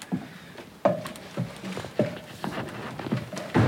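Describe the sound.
Footsteps descending a steep wooden staircase inside a shell-grinding windmill, a series of dull knocking treads spaced at a slow, slightly uneven pace, with quieter creaks and scuffs between the louder steps.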